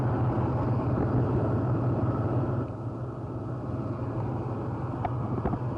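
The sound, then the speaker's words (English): Heavy rumble of Marine M48 tanks and heavy vehicles rolling down Route 9 toward Quezon: a loud, steady, low engine-and-track drone that eases slightly partway through and then holds evenly to the end. “Operation Pegasus is in its second day, and already Marine tanks and heavy vehicles have begun rolling down Route 9 to Quezon.”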